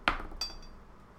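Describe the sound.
A drinking glass is handled, giving two short, bright clinks with brief ringing tails, the second slightly softer. The sounds are faint and isolated, with no talk.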